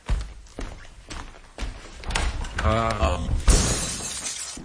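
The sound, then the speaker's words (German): Glass shatters as an armchair is thrown through a window, with several sharp crashes and rattling debris spread over a few seconds and a voice briefly heard midway. “Ich muss den Sessel durch das Fenster werfen.”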